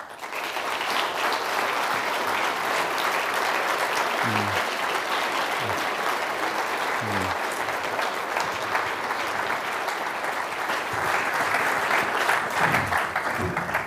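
An audience applauds after a lecture on global health: dense, sustained clapping that stays loud and steady throughout, with no talk.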